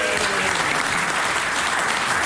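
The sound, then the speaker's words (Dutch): Dense applause, many hands clapping rapidly and evenly for the full clip, loud and unbroken. “Applaus!”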